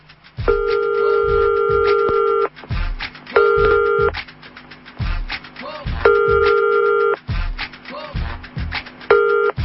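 Ringback tone of a telephone while a call is being placed: steady ringing bursts repeat with pauses between them, over other low sounds.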